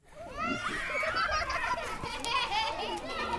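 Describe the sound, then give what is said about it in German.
Children playing at a refugee camp in Yola, eastern Nigeria: many lively high voices calling, squealing and chattering together, loud and continuous throughout. “Kinder spielen ausgelassen, an den Kochstellen klappern Kessel, Frauen schwatzen in der abschwellenden Hitze des Tages.”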